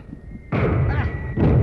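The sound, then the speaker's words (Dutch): Enemy shots landing in soft sand nearby, two heavy dull thuds, one midway and one near the end, each followed by a low rumbling roar. “Die schoten waren allebei rechts. 40 of 50 meter hoogstens.”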